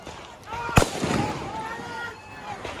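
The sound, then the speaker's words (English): A single sharp, loud gunshot from an AR-15-style rifle, captured on video, cracks out briefly among background voices and a low ongoing din. “Rittenhouse, who was armed with an AR-15-style rifle, provided by an adult friend. Rittenhouse begins firing, as you can hear in this video from journalist Brendan Guttenschwanger.”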